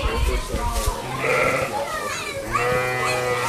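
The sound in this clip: Lambs and sheep bleating in a barn, with several wavering, high bleats overlapping one another amid a busy background of people talking.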